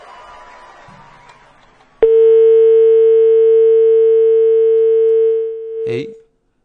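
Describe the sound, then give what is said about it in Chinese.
A call-disconnected tone as a phone line drops on a radio call-in hotline: after a low, faint murmur, a loud steady single-pitched tone holds for about three and a half seconds, fades, then ends in a short burst of noise. “哎呦，这边也都掉线了哈，这个连续出现这个掉线的情况，也是有可能我们这个电话系统出问题了。”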